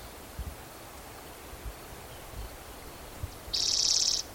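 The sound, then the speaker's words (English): A yellow warbler singing: one short, bright, high-pitched burst near the end, after faint low thumps in an otherwise quiet outdoor hush. “I think that's a yellow warbler singing.”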